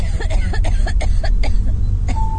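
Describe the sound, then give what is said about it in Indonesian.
A woman coughing like a sick person on the floor below in a house, with many short, harsh bursts in quick succession over a steady low rumble. “Suara orang batuk-batuk itu sepertinya terdengar dari lantai bawah. Batuk seperti orang sakit.”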